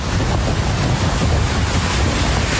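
Heavy surf and strong waves at Riva in Beykoz, Istanbul, during rough sea and strong currents. A loud, unbroken roar of churning water with a constant wind-like rush, no distinct separate breakers, and no talk.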